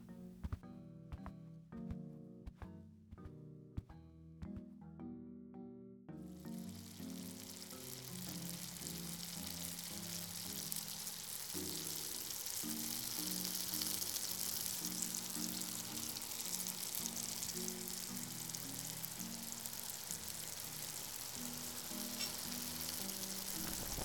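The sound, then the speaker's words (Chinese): Food fries and sizzles in a pan during cooking, a dense, steady, crackling hiss that swells in after several seconds of soft plucked music and keeps going, with the music still playing underneath. “我要开始做饭了，一会儿做熟了叫你。”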